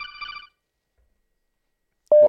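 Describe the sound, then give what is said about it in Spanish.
A telephone rings with an incoming call: a short warbling ring, then silence, then a loud steady tone that begins near the end and runs to the close. “A ver, tenemos llamada, échala.”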